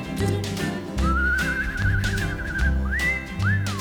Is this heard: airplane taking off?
no